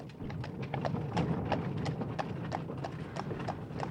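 Hoofbeats of a horse-drawn carriage pulling away, a brisk, steady clip-clop over a continuous low rumble of wheels throughout, with no talk.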